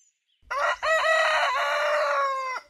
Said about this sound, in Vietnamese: Sáng hôm ấy, Long giật mình thức dậy khi nghe con gà trống tơ ở nhà gáy lên.